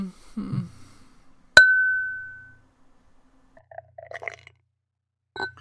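A can of wheat beer cracks open with one sharp snap and a brief, ringing metallic tone. After a pause, liquid gurgles into a glass in short, soft bursts, and a faint final splash follows.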